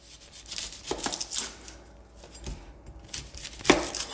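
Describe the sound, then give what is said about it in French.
Onions are peeled by hand. Papery crinkling, tearing and rubbing sounds come in irregular bursts, fairly quiet, with a few sharper knocks. “maintenant, on va préparer les oignons. Donc d'abord, il faut les peler.”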